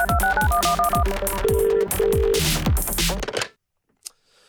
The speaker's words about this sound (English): That was like a ringtone back on the flip phone days.